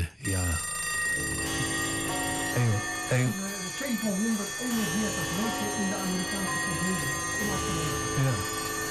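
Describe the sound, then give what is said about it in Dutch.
Many clocks ring and chime at once in a rock album track, a dense, sustained clangor of bells and alarm-like rings, with people talking over it. “het aantal klokken hiervan ben ik kwijt.”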